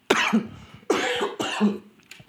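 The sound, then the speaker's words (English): A person coughs three times in quick succession, each a harsh, loud burst with a throaty, voiced tail, heard alone without speech. “forgive me for the cough”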